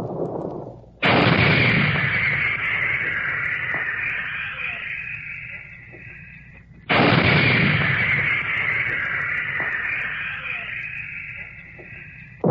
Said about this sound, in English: Behind all this, the big guns, the 155s, pounded away at enemy positions.